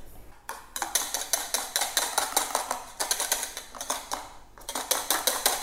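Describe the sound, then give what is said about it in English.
A big whisk beats a mixture by hand against a bowl, giving rapid rhythmic metallic clicks in quick bursts. The vigorous strokes are steady and bright, and no talking is heard. “Let me get a big whisk actually. You can whisk this up with a mixer for sure, but I'm just going to do it by hand.”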